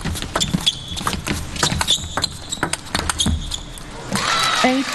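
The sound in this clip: A table tennis ball clicks and bounces sharply in a women's match as Wang Manyu switches to a backhand serve. Many crisp, irregularly spaced taps of ball on table and paddle follow one another quickly over a low background.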